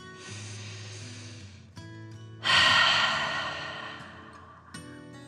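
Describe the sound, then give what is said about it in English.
Deep breath in and out during a children's relaxation exercise, heard as one long, loud breathy rush that swells and then fades gradually over a couple of seconds, with no talking. “Now relax and take a deep dragon breath in and out.”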